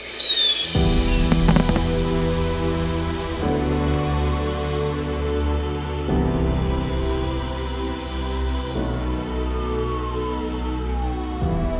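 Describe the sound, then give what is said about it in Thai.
Fireworks burst in the sky. A few sharp cracks come near the start over a steady, dense rumbling din that continues throughout. “แม้ทั่วแผ่นฟ้าตอนนี้จะสวยงามไปด้วยการกระจายของดอกไม้ไฟ”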